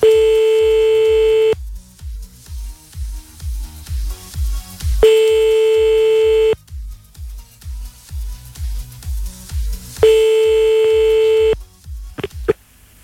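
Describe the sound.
Telephone ringing tone on an outgoing call in France: three long, steady tones, each about a second and a half, separated by longer gaps, over a steady rhythmic thumping beat, ending with a couple of short clicks.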